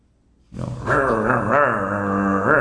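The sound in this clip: A human voice imitates a pack of territorial dogs growling. After a short quiet start, a rough, low, sustained snarl with wavering pitch runs for about two seconds.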